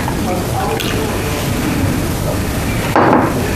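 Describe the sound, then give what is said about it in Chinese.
Warm water, about 50 degrees, pours into a container in a continuous rushing stream, with a brief, louder splash near the end. “水倒完了，搅拌一下。”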